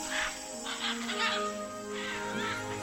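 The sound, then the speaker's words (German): Macaws screech as they fly overhead in the dusk of a setting Pacific sun. Harsh, raucous calls come in a few rough bursts over a steady low background hum. “Während die Aras im Dämmerlicht der untergehenden Pazifiksonne kreischend über unseren Köpfen fliegen, verstehe ich, was Michael Schnitzler meint.”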